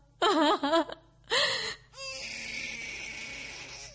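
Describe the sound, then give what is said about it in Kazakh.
Baby crying: a few short, wavering, high-pitched wails in quick bursts, followed by a longer drawn-out cry that is quieter and sustained to the end. “Шо? Шо нинди тавыш бу? Бала елый? Нарасыйым елый түгелме”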